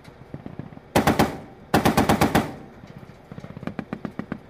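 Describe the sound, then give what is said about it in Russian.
Army machine-gun fire pours onto the Securitate building in Romania in two dense, rapid, loud volleys, followed by a looser string of sharp single shots. “И эти кадры, собственно, главные кадры, когда из танков, из пулеметов армия стреляет по зданию секьюритата.”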